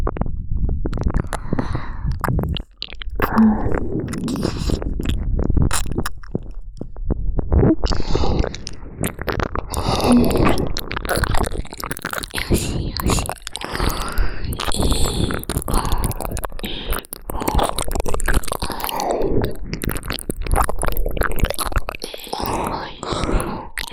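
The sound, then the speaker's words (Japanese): Wet ear-licking ASMR mouth sounds: many soft, moist smacks and slurps, irregular and continuous throughout, with no talking. “ご主人様のお耳いっぱいペロペロ舐めさせていただきますね。”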